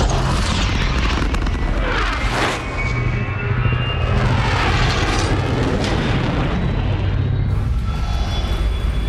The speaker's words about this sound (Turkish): Karanlık madde motorlarını çalıştır. Tam güç ileri.